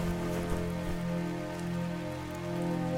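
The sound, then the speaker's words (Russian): Steady rain falling during a storm with lightning, a dense, even hiss of drops that holds constant throughout, with no distinct thunder clap. “Хмурое небо сквозь ветви деревьев. Льет дождь, сверкает молния.”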